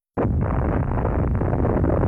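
An atomic bomb explosion bursts in abruptly from silence. It becomes a loud, dense, low rumbling roar that holds steady for about two seconds.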